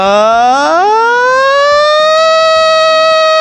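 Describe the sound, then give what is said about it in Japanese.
A voice imitates a siren like the one at a high school baseball stadium, sliding smoothly from a low pitch up to a high one and then holding a loud, steady tone. “っていう感じで声を出してみます。なんか甲子園のサイレンみたいなうーみたいな。”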